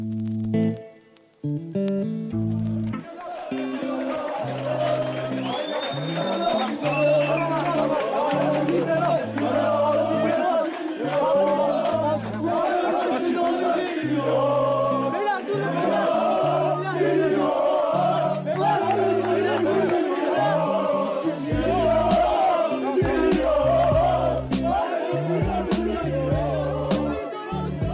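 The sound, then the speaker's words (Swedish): Galatasaray football fans give a chaotic welcome to a player just landed at an Istanbul airport in June 2007. A dense crowd roars and chants continuously over a loud, rhythmic low pounding beat. “Det ni hör här är Galatasaray-fansens kaotiska välkomnande av Tobias Linderoth när han precis landat i Istanbul i juni 2007.”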